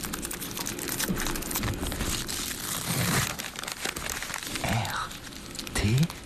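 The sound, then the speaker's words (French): Paper crumples and a newspaper is torn in an ASMR recording, making dense, continuous crinkling and crackling with a few louder tearing bursts. “Il y avait du café, il y avait du papier, il y avait le Parisien d'hier qui est déchiré”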